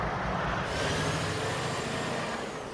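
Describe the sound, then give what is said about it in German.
Deep, steady engine rumble of a heavy transport truck hauling a 119-tonne crane base at night, a continuous, loud roar with little change over the span. “Das ist der letzte Schwertransport in dieser Nacht mit dem Grundkörper des Krans, 119 Tonnen schwer.”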